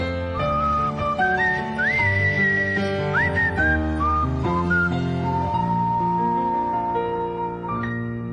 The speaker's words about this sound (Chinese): 一唱呢只歌咧，行郊野公园我就吹口哨噶啦，因为自然反应嚟嘅